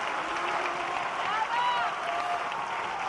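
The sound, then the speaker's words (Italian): Applause from an opera theatre audience at La Scala in Milan for a ballet dancer's performance, a steady wash of clapping throughout, partly under a voice. “E questi applausi quindi non sono quelli per Verdi, ma sono quelli della Scala di Milano, che è letteralmente venuta giù per l'interpretazione della ballerina austriaca Fanny Elsler”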